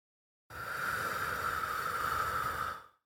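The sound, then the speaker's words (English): One long, airy breath, a soft steady hiss of about two and a half seconds that eases off at the end, demonstrating the pattern of breathing in through the nose and out through the mouth. “breathe in through your nose and out through your mouth, just like this”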